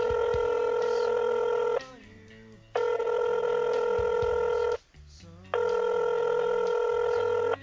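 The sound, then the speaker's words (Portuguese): A telephone call ringing through: three long, steady electronic ring tones, each separated by a short pause, sounding loud and clear with no voices. “Vamos ligar pro Gil, nosso correspondente.”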